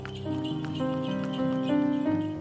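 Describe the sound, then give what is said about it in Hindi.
Horse hooves clip-clop steadily as a horse pulls a tonga cart along the shiny surface of Mall Road. The hoofbeats sit under sustained tonal music. “उस्ताद मंगू उस वक्त माल road की चमकीली सतह पर तांगा चलाते हुए”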